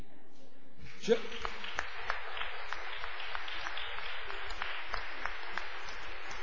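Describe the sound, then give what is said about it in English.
Audience applause at the end of a talk: clapping starts with a sharp onset and continues as a dense, even patter. “see, I got my biggest applause when I said I was going to stop. I really appreciate that.”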